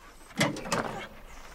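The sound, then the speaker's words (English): A metal mailbox door is yanked open in two quick, faint, scraping clanks close together, followed by a brief rattle that fades away. “Her hand hovers around the metal tab at the top of the door, which she quickly yanks open.”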